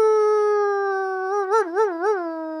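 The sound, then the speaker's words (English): A human voice imitates a wolf howl with a long, steady, sustained "awoo" tone that turns into a wavering, pulsing warble near the end, alone with no other sounds. “So howl means to awoo, okay? That's the sound that dogs and wolves make.”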